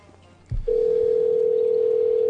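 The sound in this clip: A telephone dial tone: a brief low thump from the line picking up, then a steady, loud, unbroken tone that holds to the end.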